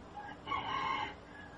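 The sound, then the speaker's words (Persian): A rooster crows once, a single drawn-out call rising out of a faint background and fading after about half a second, with no voices over it. “صدای خروس هم میاد در زمان.”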